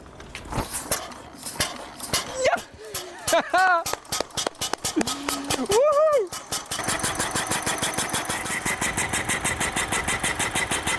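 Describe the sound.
An early car engine is cranked with irregular sputters and clanks, then catches and settles into a steady, rapid rhythmic chugging that runs to the end.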